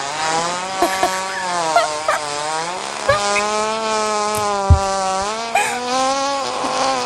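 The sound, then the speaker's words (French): A young man imitates a mosquito's whine with his buttocks: a loud, continuous reedy buzzing drone with a wavering pitch and small sputtering pops scattered throughout. “Est-ce qu'un jeune homme a imité le bruit d'un moustique avec ses fesses pendant 20 secondes?”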